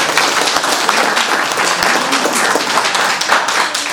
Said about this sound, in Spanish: Un aplauso, hermano.